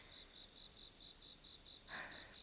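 Bell crickets chirping in a quiet, high, evenly pulsed trill that repeats steadily throughout, with a brief soft rush of noise near the end.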